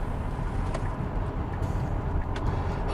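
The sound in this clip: A Tesla 90D electric car accelerating mid-drive: a steady, low, muffled road and cabin rumble with no engine note, holding an even level throughout.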